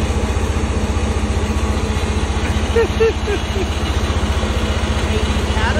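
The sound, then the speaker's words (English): A Caterpillar diesel generator runs as it supplies electricity to Electrify America vehicle chargers, a steady low rumbling drone with an even, rapid pulse that continues unchanged throughout. “a Caterpillar serious diesel generator doing what it does, providing electricity to the chargers.”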